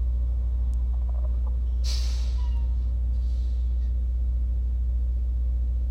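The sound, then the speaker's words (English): Deep, steady engine rumble from a large bus pulling up just behind, with a brief burst of air-brake hiss partway through; the low drone stays constant throughout. “it's a huge bus that just pulled behind me.”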